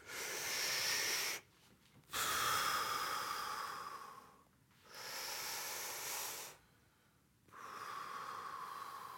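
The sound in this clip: Slow, deep belly breathing during a relaxation exercise, filling the bottom of the lungs. Four long, airy breaths with a soft hiss, separated by short pauses, with no talking.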